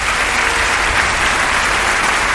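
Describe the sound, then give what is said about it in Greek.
Warm, dense audience applause, a steady wash of many hands clapping that holds at an even, fairly loud level throughout with no voices. “το ίδιο ζεστό χειροκρότημα στον κύριο Γιώργο Πεχτυπάνογλου, τη Σάρα.”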